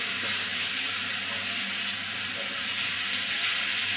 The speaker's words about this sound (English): you can hear the mustard seeds popping